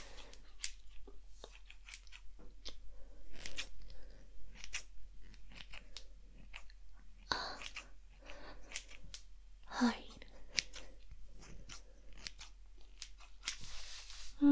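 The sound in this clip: Scissors snip hair during a careful trim, many crisp, irregular cuts at low volume, with soft, whispery talk between them.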